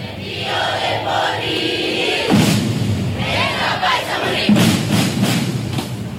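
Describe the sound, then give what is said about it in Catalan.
Festival drums pound through a large crowd during a drum festival in Gandia, with loud, dense thuds and two sharp heavy strikes standing out over a continuous roar of crowd noise. “I clar, és molt emocionant aquest so dels tambors tota la vegada.”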